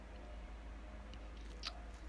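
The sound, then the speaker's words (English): Someone eats a mango with faint, soft, wet squishing chews and one brief, sharper bite near the end. “I'll sit here and monologue for a little bit while I'm eating my mango.”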